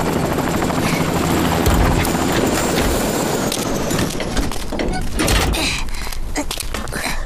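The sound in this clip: Aircraft engine noise as a small aircraft comes in to land: a loud, dense, continuous roar with a rhythmic rotor-like chop that holds steady throughout.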